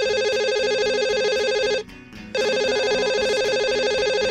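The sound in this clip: A mobile phone ringtone sounds: a bright, steady electronic melody repeating loud and alone, broken by one short pause in the middle before it resumes.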